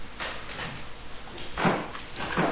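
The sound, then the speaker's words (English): A window being opened gives a few soft scraping and rattling sounds, with two louder sliding bursts toward the end over a faint background hiss. “You want to open the window a little too? A little more.”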